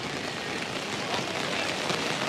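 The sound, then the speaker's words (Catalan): Rain falling during a football match, a steady, even hiss of drops that holds at the same loudness without pause for the whole stretch. “segueix apretant la pluja. Això no ho fa fàcil.”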